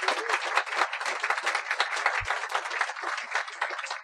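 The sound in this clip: Audience applause welcomes two speakers at an evening talk on the New Horizons mission: dense, steady clapping from a crowd that fills the whole stretch at an even loudness, with no voices over it.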